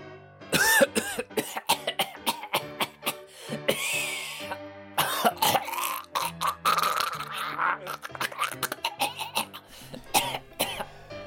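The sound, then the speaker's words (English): Choking and coughing noises from one person: many harsh coughs, throat clearing and gagging bursts in irregular clusters, with brief pauses between them. “And now I proudly present some choking noises.”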